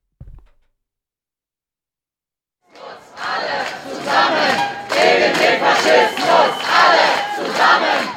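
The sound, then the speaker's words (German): Counter-protesters shout against an AfD campaign rally with candidate Ulrich Siegmund near the Ulrichskirche. After a short silence, a loud crowd breaks into rhythmic chanting that swells in regular pulses and stays dense to the end. “Wir hören ein paar Eindrücke davon, von diesem Auftakt und dem Protest dagegen.”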